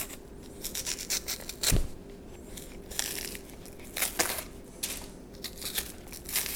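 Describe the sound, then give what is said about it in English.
A ripe or unripe plantain is peeled by hand, its skin tearing and crinkling in irregular crackly bursts, with one sharp louder snap. No one speaks. “All right, I'm peeling the other plantain.”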